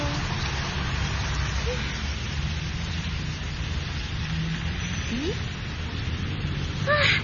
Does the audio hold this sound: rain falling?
yes